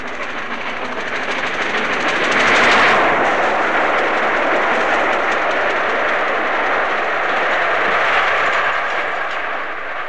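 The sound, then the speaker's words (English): The Flying Scotsman steam locomotive passes Goring with its back left-hand steam chest cover coming loose. A broad, loud rushing roar is laced with rapid knocking beats and swells early on before holding steady. “What in fact was happening was that the back left-hand steam chest cover was coming adrift, and here, passing Goring, the sound is perhaps even more pronounced.”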